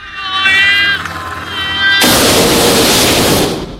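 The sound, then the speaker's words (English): A burst of flame shot ahead breaks in as a sudden, loud, sustained roaring rush of noise, cutting off a high, wavering tonal sound heard just before it. “shoots a burst of flame ahead of them before they move on.”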